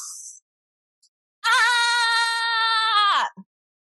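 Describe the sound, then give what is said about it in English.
A person screams out a big, deep breath as a frustration-releasing breathing exercise: one loud, sustained, strongly voiced scream that holds a steady pitch and then drops sharply at the end, with brief quieter sounds before it. “we take a big, deep breath in. And then we scream it out.”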